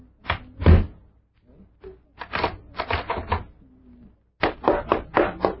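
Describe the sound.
A door is shut and locked: a heavy thump followed by several sharp clunks and rattles in irregular bursts, separated by short quiet gaps.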